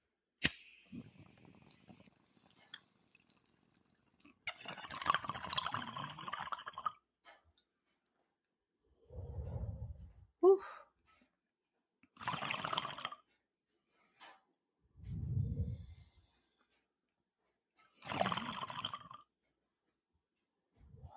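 Water bubbling in a bong as someone takes a hit: faint, intermittent gurgling in several separate bursts, with short quiet pauses between them.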